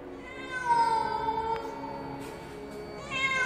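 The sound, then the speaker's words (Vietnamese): A cat meows after slipping in through a fire-exit door into a stairwell. It gives one long, drawn-out, wavering meow, then a brief quieter pause, then a fresh, loud meow at the end. “Là con mèo, là con mèo. Nó chui từ cánh cửa thoát hiểm đi vào. Thần linh ơi, khi con mèo vừa mới chạy đến chỗ tôi, nó kêu lên”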